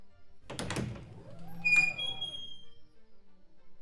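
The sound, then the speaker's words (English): Heavy thunk of a secret door behind a pillar being pushed open. A muffled knock sounds early, followed by a faint, lingering resonance that fades out slowly. “is actually a secret exit over here, just behind this pillar. See? Just here. And when I push open the door,”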